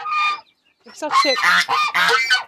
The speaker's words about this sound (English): it's nature, it's birds,